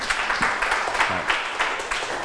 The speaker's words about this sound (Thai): ขอบคุณมากครับปรบมือให้เพื่อน